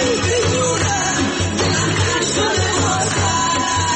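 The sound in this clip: A crowd gathers at a funeral for people killed in protests in Iran, forming a dense, continuous wash of many voices and noise that stays steady and loud throughout.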